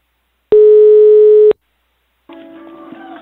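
Telephone ringback tone while calling someone: one loud, steady, mid-pitched tone lasting about a second, then after a short silence a fainter, rougher buzzing stretch.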